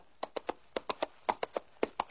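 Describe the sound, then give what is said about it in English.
A horse's hooves clip-clop in quick, fairly faint beats, falling into four clusters of three sharp knocks at an even walking rhythm, with no voices. “Well, hello there, horse. I thought I'd come up and give you a hand.”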